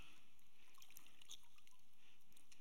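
Running water pours over hands as they are washed, a steady hiss flecked with small splashes and trickles.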